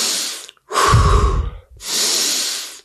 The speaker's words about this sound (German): atmet durch die Nase tief ein und durch den Mund tief aus. Genau, also tief ein und aus.